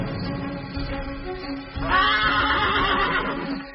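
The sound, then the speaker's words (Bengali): A horse whinnies loudly in a long, quavering, harmonic neigh that begins partway through, after quieter low tones. Two horses are being led up and tied to a tree. “ঘোড়া দুটোকে এনে গাছের সঙ্গে বাঁধল দিগম্বর।”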